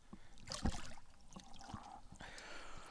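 Water sloshing and trickling as someone climbs out of an ice bath, a steady wash of splashing with one stronger splash early on, no voices.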